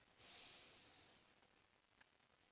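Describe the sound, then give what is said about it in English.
A deep breath in during guided relaxation, one soft, airy inhale that swells and then tapers away, faint and followed by near quiet. “let's close our eyes and let's take a deep breath in.”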